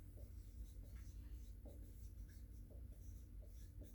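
Writing on a board, heard as faint, soft scratching strokes that repeat in an uneven rhythm, each brief and light, over a low steady background.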